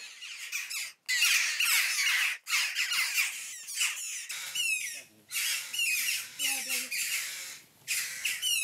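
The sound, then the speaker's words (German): Shrill, insistent begging calls of a hungry common buzzard chick at feeding time: loud, rapid squawks repeated in dense, overlapping bursts, broken only by a few short pauses. “Schwächere Stimmbänder, aber mindestens genauso hungrig. Das Mäusebussardküken.”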